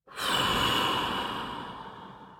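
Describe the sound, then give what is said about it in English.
Deep breath during a guided breathing exercise, in through the nose and out through the mouth, heard as a single long breathy rush that starts abruptly, stays full, then slowly tapers, alone. “In through your nose, out through your mouth.”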